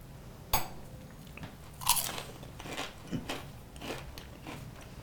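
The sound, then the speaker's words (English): Someone bites into fried beef dumplings topped with sugar. Two sharp, crisp crunches stand out, followed by softer chewing crunches. All of it is quiet and close, with no talk. “so these beautiful little fried beef dumplings with some sugar on top. This is fascinating.”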